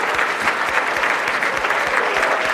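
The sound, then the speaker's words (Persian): Audience applause greets a project manager introduced at a presentation: dense, steady clapping from many hands holds at an even level throughout. “لطفاً یه دست قشنگ بزنین به افتخار مدیر پروژه‌مون، ران تراسپر.”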